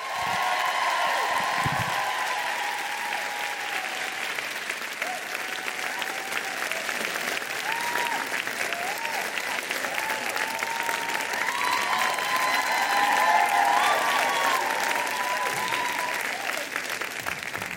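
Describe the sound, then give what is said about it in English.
An audience applauds guests with steady, dense clapping that holds at an even level for the whole stretch without letting up. “Put your hands together for Tatiana and Brotima.”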